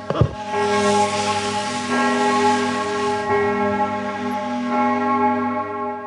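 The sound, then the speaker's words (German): Church bells ring through an open window, a loud, sustained wash of overlapping tones with fresh strikes arriving every second or so over a steady hum, and no voices. “Bevor wir jetzt so richtig anfangen, möchte ich noch schnell uns aufs Kirchengeläut abhärten, dass es uns nachher nicht mehr auffällt während der Folge”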